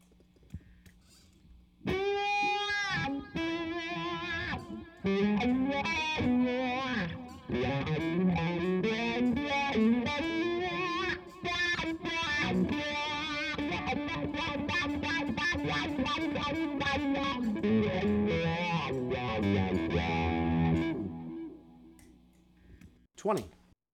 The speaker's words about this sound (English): Bridge pickup distortion.